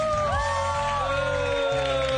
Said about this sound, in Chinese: 台下嗰各位好同学，不如一齐俾啲掌声好唔好啊？